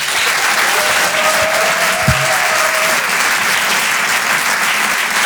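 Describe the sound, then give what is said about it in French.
A comedy club audience applauds as a comedian is introduced to the stage. The clapping is loud, dense and unbroken from start to finish, with no talk over it. “Je vous demande de faire un maximum de bruit, s'il vous plaît, pour Paco Pérez.”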